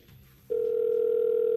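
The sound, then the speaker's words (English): A steady telephone line tone sounds as a call is dialed to a phone number. A faint low murmur comes first, then the tone starts abruptly and holds loud and even until the end. “Calling him right now. This could be Ashton Kutcher. Let's find out. I've got the number in. Ashton Kutcher dialing right now.”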